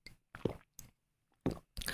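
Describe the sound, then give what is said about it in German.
A person takes a sip of a drink: a few short, wet slurping and swallowing noises separated by brief silences, fairly quiet, with no talking. “Jetzt muss ich mal einen Schluck trinken hier noch.”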